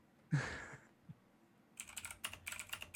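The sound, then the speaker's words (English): Keystrokes on a computer keyboard come in a quick, uneven run of many clicky taps after a single louder knock near the start and a short pause, with no talking. “let me type that back in.”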